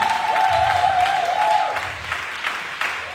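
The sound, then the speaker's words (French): An audience at a church gathering applauds to honor a pastor's father, with steady clapping throughout and a sustained high tone over the first half. “Est-ce qu'on peut acclamer mon père, s'il vous plaît”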